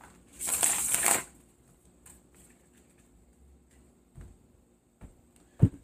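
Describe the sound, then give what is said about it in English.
Cards drawn from a deck make a brief, dense rustling flurry, followed by quiet handling with a couple of soft taps and one sharp knock near the end. “I'm going to take eight cards. After I take the eight cards, I will tell you what I have, and then we can take it from there.”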